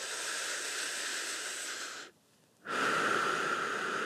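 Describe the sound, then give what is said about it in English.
Smooth, slow breathing in and out during a paced breathing exercise. There are two long, even, airy breaths: the first lasts about two seconds, then a brief silent pause, then a second that runs to the end. No one speaks. “so that's smooth breath”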